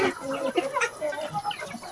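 Roosters and hens cluck in a farmyard video: a busy run of short, overlapping clucks and calls at moderate volume, with some of the calls rising a little higher than the rest.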